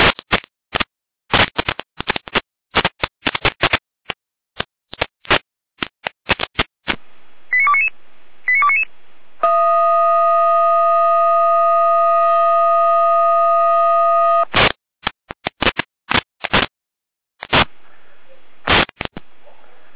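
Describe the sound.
Fire brigade radio alerting tones from the Jena area in Germany, calling crews to a tree blocking a road: rapid bursts of short beeps, then a steady multi-tone chord lasting about five seconds, followed by more brief tone bursts.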